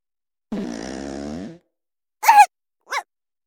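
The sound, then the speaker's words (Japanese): Flatulence is heard in three bursts. The first is a long, buzzy, tonal rasp lasting about a second. Two short, sharper blasts follow after a pause, with silence between them. “またおならが、このままうんちも出ちゃいます。”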